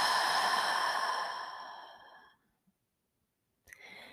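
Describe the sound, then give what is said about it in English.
A deep sighing breath with a breathy, slightly voiced tone, loud at first and then fading out. After a silent pause, a short soft breath sound follows. “one deep breath together to start us off. Inhale and exhale.”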